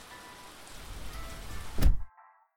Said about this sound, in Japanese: あ、やっぱり雨降ってきちゃった。雲行き怪しかったもんね。